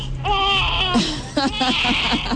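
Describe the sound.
A crying sound effect of infant-like wailing: a sustained, high, wavering cry at first, then several shorter broken sobs, loud and alone.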